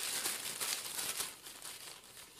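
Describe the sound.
Paper slips being drawn out of a bag make a continuous, soft crinkling and rustling, faint and steady with small bursts throughout.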